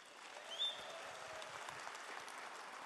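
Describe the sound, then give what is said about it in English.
An audience applauds to welcome a guest speaker at a church service: soft, steady, even clapping without breaks, with one brief faint squeak early on. “I would love it on every campus, everywhere we're at, if you would give a warm welcome to Dr. Joe Sluniker.”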